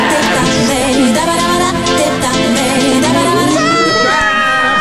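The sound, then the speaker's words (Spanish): Passengers on a bus shouting together at the speeding driver: a loud, continuous mass of overlapping raised voices with no break across the whole clip. “Todos en el bus le gritan:”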